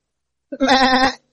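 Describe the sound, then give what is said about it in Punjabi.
A man's voice imitates a billy goat's bleat, the call of a male goat described by someone whose grandfather herded goats: one strained, wavering bleat lasting about half a second, loud and alone. “ਬੱਕਰੀਆਂ ਜੋ female ਤੇ ਮੇਲ ਜਿਹੜਾ ਹੁੰਦਾ ਉਹਨੂੰ ਬੋਕ ਕਹਿੰਦੇ ਨੇ ਬੋਕ ਏਦਾਂ ਕਰਦਾ ਬੱਕਰੀਆਂ ਏਦਾਂ ਕਰਦੇ”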